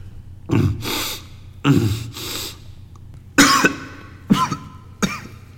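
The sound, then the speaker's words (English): Ragged, heavy panting from a person out of breath in a museum. Several loud, breathy gasps come in uneven bursts, some with coughing-like catches, separated by short pauses and with no talk. “you really should catch your breath”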